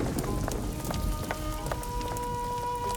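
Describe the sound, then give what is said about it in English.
Rain pours down on a street in Delft as a dense, steady patter of drops with sharper splashes scattered through it and a faint sustained tone running underneath. “The rain pours down in the street outside the Vermeer's house.”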